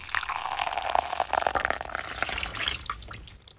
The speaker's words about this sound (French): Tu entends le bruit de l'eau qui coule sur les cheveux?